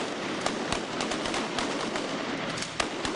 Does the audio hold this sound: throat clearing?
no